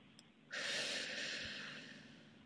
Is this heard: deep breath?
yes